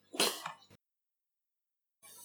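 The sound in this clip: A dog sniffing at close range: a few short, breathy snuffling bursts in quick succession, then silence before a faint hiss returns.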